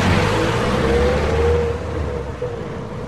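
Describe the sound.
Steady engine and road rumble from inside a friend's car being driven at night, a continuous low drone with a faint humming tone running through it, slightly louder in the first half and with no talk.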